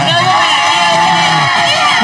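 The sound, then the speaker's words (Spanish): A loud, continuous crowd roar of cheering and whoops at a celebration for the Chivas football club, with shouting voices that sound high-pitched like children's and a steady, dense level throughout. “Muy bien, aplauso para las Chivas. Aplauso para las Chivas.”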